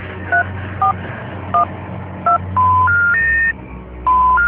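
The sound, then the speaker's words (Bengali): Telephone keypad tones as a number is dialed: four short, evenly spaced beeps, then a run of longer, steadier tones at shifting pitches, separated by a brief pause. “আমাকে এখনই এখনই phone দিতে হবে, সচিনকে phone দিতে হবে।”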